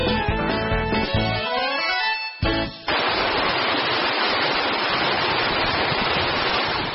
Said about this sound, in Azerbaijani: Quşqar çayıdır. Mənbəyini dağların qarından, bulaqlarından alıb üzə aşağı şırlayan Quşqar çayı.